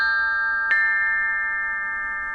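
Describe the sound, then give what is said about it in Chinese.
Ancient bronze chime bells ringing: a sustained, bright metallic tone with several steady overtones, refreshed by one soft strike partway through and then slowly fading. “快来听啊，曾侯乙编钟竟然再次奏响了”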